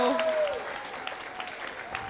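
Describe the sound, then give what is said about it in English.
Applause and cheering from a small group urging on a player during a timed tagging game: a steady clatter of claps with excited voices over it throughout. “Come on, cheer him on! Go, Ezra, go! Cheer him on!”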